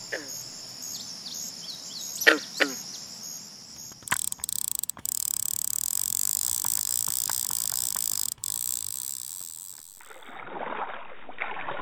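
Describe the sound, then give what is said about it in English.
Two short twanging plucks of a green frog calling, standing for aquatic life, sound over a steady chirring of insects. Clicks, a steady mechanical hum and a low rushing noise follow. “aquatic life use, represented by a green frog”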